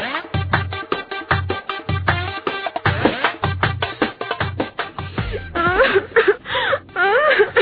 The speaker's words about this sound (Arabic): وبعدين بقى يا انسه الله يخليك بلاش عياط